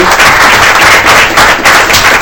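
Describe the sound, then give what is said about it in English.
Applause fills a state legislative committee hearing room: a brief, dense burst of many hands clapping that holds steady and loud through the whole clip, with no voices over it. “if we could give a quick round of applause for these”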